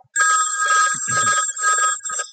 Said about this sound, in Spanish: el teléfono suena en la casa de Lord Armstrong, en el norte de Yorkshire, Inglaterra.